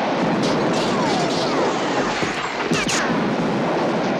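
Relentless gunfire roars from a film scene in which police unload their whole arsenal on a house, a dense, loud, continuous barrage with no pauses and no voices.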